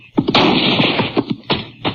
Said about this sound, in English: Now, who in the thunder are you shooting at?